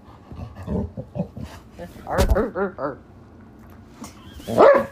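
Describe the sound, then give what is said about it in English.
A dog barks after its toy is taken away. A few short, sharp barks come in the middle and one more comes near the end, with quieter vocal sounds in between. “I notice when I take the toy away, he barks.”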